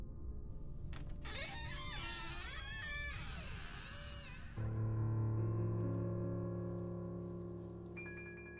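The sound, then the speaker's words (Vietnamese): A door hinge creaks as a house's front door, left slightly ajar, is pulled open: a faint, drawn-out, wavering squeal that lasts several seconds, then gives way to a steady low hum. “Tiếng bàn lề vang lên kéo kẹt, cánh cửa được Mạnh mở ra.”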